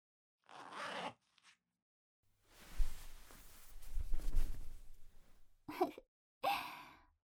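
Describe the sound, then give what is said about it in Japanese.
A skirt's hook and zipper are unfastened: a soft rasping zip drawn out over a few seconds. Quiet breathy sighs come before it and twice after it. “ここにホックとファスナーがあるから、ほら、外してみた？”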